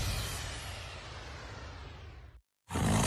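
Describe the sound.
A lion roar in a radio advert for Simba maize seed: one long, rough, loud roar holds steady, then cuts off abruptly. After a short silence a second loud burst begins. No talking.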